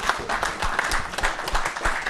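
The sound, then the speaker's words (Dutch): Audience applause at a meeting: many hands clapping in a dense, irregular patter, loud and steady throughout with small swells, and no voices on top. “Verder is, wou ik een applaus vragen voor dit.”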